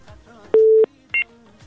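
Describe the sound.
Two electronic telephone tones as a call connects: a longer, lower tone, then a short, higher one, with quiet background between them.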